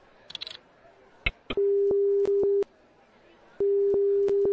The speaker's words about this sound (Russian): Ага, гудок, так.